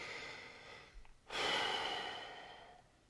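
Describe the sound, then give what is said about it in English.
A deep breath drawn in slowly, a soft, airy rush of air that swells suddenly after a brief faint intake and then fades gradually over more than a second, alone, with no talk. “Real deep breath. Close your eyes, get in every ounce of oxygen into your lungs that you can”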